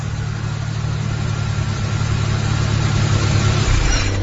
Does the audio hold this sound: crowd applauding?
no